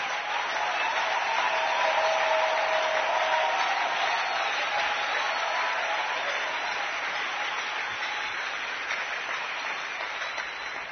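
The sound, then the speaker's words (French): An audience applauds during a church sermon, acclaiming Jesus with sustained, even clapping for about eleven seconds that eases slightly toward the end. “Et cette personne est dans l'évangile. Jésus de Nazareth. Et je voudrais que nous l'acclamions très fort.”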